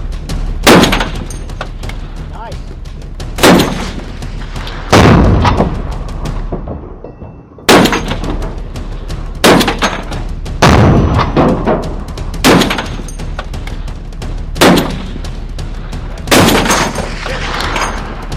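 Loud gunshots ring out at a shooting target in daylight. Many sharp reports are spaced a second or more apart, each with a booming tail that lingers between shots.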